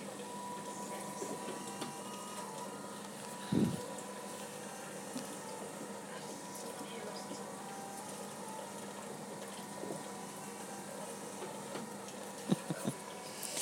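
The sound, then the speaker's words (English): A medical machine hums through a treatment session of more than four hours: a faint, continuous mechanical drone with a steady whine, broken by a few soft clicks. “My machine has been singing all the way through.”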